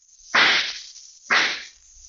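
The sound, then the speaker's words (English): Two gunshots fired behind a man, each a loud sharp crack with a short fading tail, about a second apart, with no talk. “Wait till I shoot this gun off behind him.”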